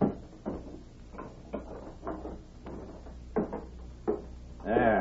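A safe holding close to $10,000 in cash is shut and locked, with a few separate metallic clunks and latch clicks. The sounds are fairly faint and set against quiet background.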